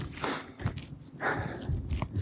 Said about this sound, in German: Also ich gehe jetzt gerade wieder durch eine Alm durch. Zwischen den Disteln, die da